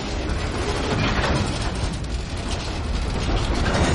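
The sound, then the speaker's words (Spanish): Steady rumble and clatter of a train running along the track, loud and continuous with no pauses. “El tren se aleja.”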